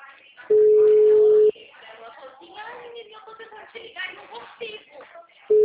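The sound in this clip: Telephone tone after a dropped call: one steady, mid-pitched beep lasts about a second, then voices talk before the tone starts again at the very end.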